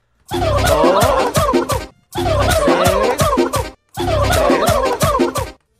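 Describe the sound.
A turkey gobbling sound effect: three loud, rapid, warbling gobble bursts, each about one and a half seconds long, separated by short silent gaps.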